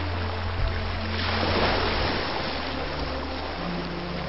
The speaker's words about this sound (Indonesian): Percikan air terdengar saat benda itu meronta-ronta.